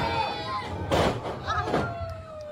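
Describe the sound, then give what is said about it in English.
A wrestler taking a chokeslam onto the ring lands with one heavy, booming thud, followed by a few softer knocks amid talk. “And he took a choke slam.”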